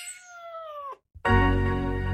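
Two meows from a cat at a cat café. The first is a long, clear cry that slides downward at its end. After a short silence comes a louder, harsher second cry.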